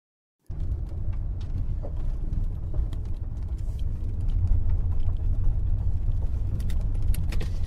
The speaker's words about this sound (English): I am driving from my dad's house in Mountain View to Melbourne, down Highway 9.